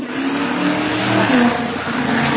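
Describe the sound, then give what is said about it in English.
A Ford Mustang's engine drones past loudly at speed, a continuous mid-pitched roar that swells slightly in the middle before easing off. “Somebody's driving his... He's driving that Mustang too fast. Oh, no, it was way loud that just went by right there. It was way too fast as well.”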